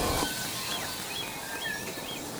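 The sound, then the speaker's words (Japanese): Wild birds sing softly in steady rain in New Zealand: a few faint, high chirps and short whistles rise over the constant hiss of rainfall. “雨に気を使っているのか控えめな野鳥たちの歌声です。”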